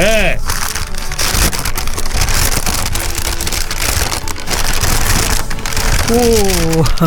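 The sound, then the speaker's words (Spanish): Wrapping paper with a yellow bow is torn open and crumpled on a gift, making a loud, continuous crackling and rustling while people talk at the start and end. “Ábralo y rómpalo, porque vio que es así, los regalos se tienen que... Con moño amarillo. Con moño amarillo. Rompa el papel. ¿Se escucha?”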